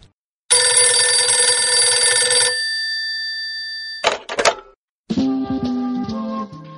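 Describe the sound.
A telephone bell rings for an incoming call in one loud, continuous metallic burst of about two seconds, heard alone. After a pause, a brief clatter follows, then a steady tonal passage.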